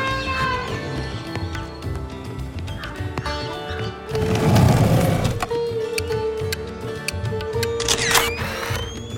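An old camera takes a photograph: a short burst of dense noise stands out near the middle of a busy, continuous background of other sounds.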